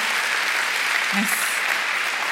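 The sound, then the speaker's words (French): Lukewarm applause from an audience at a live stage performance: a short, steady, moderate patter of clapping with no cheering or whistles. “Pas un applaudissement très franc non plus, un peu mitigé comme façon d'accueillir la nouvelle.”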